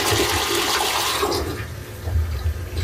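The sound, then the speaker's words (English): A small child-sized toilet used for potty training flushes with a loud, steady rush of water that continues throughout, easing slightly toward the end, with no voices over it. “And then little mini toilet. Yep, because little ones are gonna be practicing potty training.”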